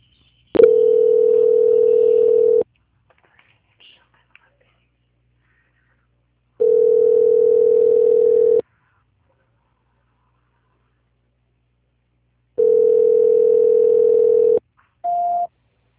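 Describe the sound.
Steady telephone line tone during a call transfer: a click, then three long, even tones of about two seconds each separated by roughly four-second silences, ending with a brief, higher-pitched beep.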